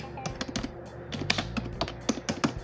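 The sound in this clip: Quick computer clicking on a keyboard and mouse to open the news, many sharp light clicks and taps in an irregular, steady patter with no voices.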